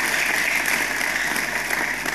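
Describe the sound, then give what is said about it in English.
Audience applause, a dense, even wash of clapping that holds steady at moderate loudness for about two seconds. “Yeah, you can clap.”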